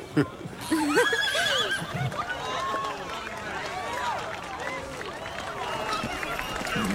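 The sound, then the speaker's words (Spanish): A horse whinnying among a crowd of talking people, its wavering neigh mixed with overlapping voices over a steady background murmur throughout. “¡Un caballo! ¡Un caballo! ¡Te amo, te amo, te amo!”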